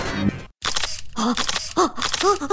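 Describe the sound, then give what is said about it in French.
A camera shutter clicks while photos are being taken, several sharp mechanical snaps in quick succession with a brief silent gap after the first. “Mais t'as fini de prendre les auditeurs en photo, toi?”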